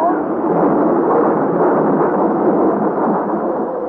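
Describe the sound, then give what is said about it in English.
The deep, continuous roar of a thunderstorm at sea during a dramatized storm, loud and dense throughout, with no separate claps standing out. “And now to the fearful claps of thunder are added dazzling flashes of lightning such as I have never seen before.”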